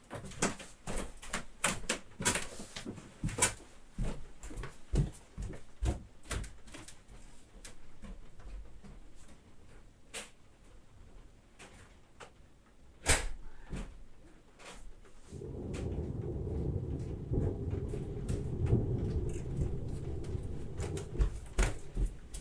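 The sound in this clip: An open Velux roof window is closed during a rainstorm: faint scattered clicks, knocks and handling clatter, followed by a steady rushing noise that fills the last part.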